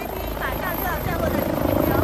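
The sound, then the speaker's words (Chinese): A rescue helicopter lands on a hospital helipad, its rotors and engine making a loud, continuous, throbbing drone that grows slightly stronger toward the end. “上午11:30，一架救援直升机稳稳地落在新开诊的北大人民医院通州院区西南侧的停机坪上”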